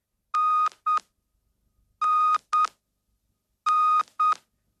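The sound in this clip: A robot character beeps electronically: six steady tones in three pairs, each a longer beep followed by a short one, with silence between the pairs.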